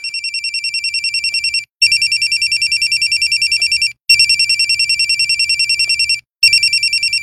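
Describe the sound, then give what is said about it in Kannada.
A phone rings with an incoming call, its electronic ringtone a loud, high, rapidly pulsing trill that repeats in long trains split by brief pauses, with no voices. “Raghu phone ಮಾಡ್ತಾ ಇದ್ದಾನೆ. Receive ಮಾಡು, receive ಮಾಡು.”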